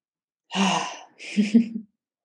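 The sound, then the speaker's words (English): Heavy breathing after dancing: two loud, breathy breaths in quick succession, each lasting about half a second, with no talking. “I'm noticing that my breath's a bit high from the dancing.”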